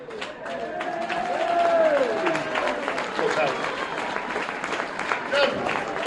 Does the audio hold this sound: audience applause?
yes